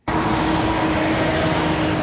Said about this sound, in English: I-81 is a major highway stretching from Tennessee to the Canadian border. Each day, millions of trucks, cars, and buses use the road, following this ancient route along the Appalachian Mountains.